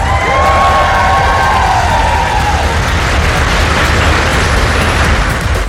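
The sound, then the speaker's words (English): Foreign Office staff cheer Ukraine's President Volodymyr Zelensky as he arrives for talks with the Prime Minister: a loud, continuous roar of cheering and shouting, with high voices rising above it in the first half. “Volodymyr Zelensky was also cheered by staff from the Foreign Office as he arrived for talks with the Prime Minister.”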